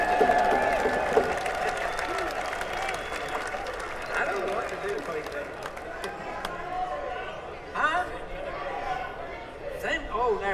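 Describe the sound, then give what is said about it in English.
Audience applause for the sound technician at a live band performance: sustained, dense clapping with crowd chatter and voices talking over it throughout. “Let's give him another great big hand.”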